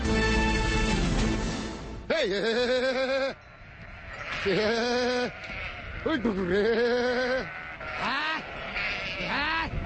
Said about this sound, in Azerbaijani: Bakı Şamaxı yolundakı qışlaqların birindəyik. Həmsöhbətim Elxanın 700 baş qoyunu var.